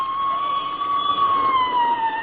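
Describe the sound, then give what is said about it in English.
A police squad car siren wails in a steady, narrow-band tone that holds its pitch, wavers slightly and then dips a little near the end as the car passes. “There goes another squad car, McGee.”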